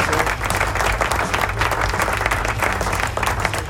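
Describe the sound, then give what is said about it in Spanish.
Applause from an audience in San Juan, Puerto Rico: dense, continuous clapping that holds a steady, fairly loud level throughout with no pauses. “Aplausos, ahí dan los aplausos.”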